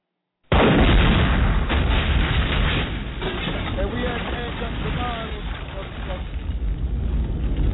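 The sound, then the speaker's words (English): Bomb explosion sound effects: a dense, loud barrage of booming blasts and crackling bursts with deep rumble, running continuously for several seconds without a break. “So this is what we're going to do. We're going to move on to the bombs.”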